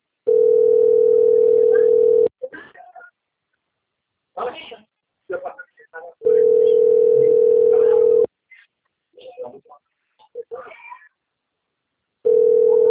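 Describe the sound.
Telephone ringback tone heard while placing a call: three long, steady, mid-pitched tones, each about two seconds with the last cut short, separated by longer gaps in which a voice speaks.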